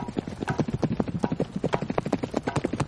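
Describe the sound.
Horse hooves trotting in a brisk, steady clip-clop, many sharp hoofbeats following one another at an even pace throughout, with no voices over them.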